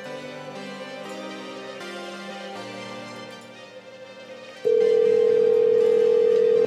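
A telephone tone sounds while a number is being called. Softer layered tones come first, then a loud, steady single-pitch tone starts abruptly and holds to the end.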